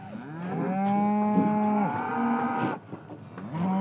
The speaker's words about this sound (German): So, da kommt der Gegner. Mehr als eine Tonne wiegt der Bulle.